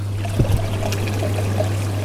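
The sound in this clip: Bubbling jets of a private pool on the French Atlantic coast, switched on: a steady watery fizz and trickle over a constant low pump hum, with a few small splashy bursts early on.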